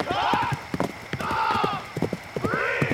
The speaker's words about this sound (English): On the horizon, a horse became visible.